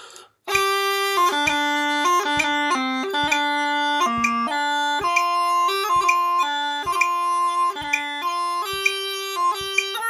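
Bagpipe tune played at a conservative tempo with slight, constant beat rushing, giving a rambly, unexpressive feel. After a brief silence, a bright, loud, continuous melody moves between held notes, punctuated by quick grace-note flicks.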